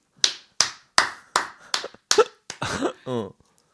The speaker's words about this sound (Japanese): え終わりなの 終わったの今の終わりの拍手だったの